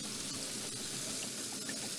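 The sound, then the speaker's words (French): Pump-driven water jet spraying a road surface, a steady, dense hiss of rushing water that holds at an even loudness for the whole stretch, with no voices. “il y a un jet d'eau. Et puis alors, là, c'est quand ils arrosent.”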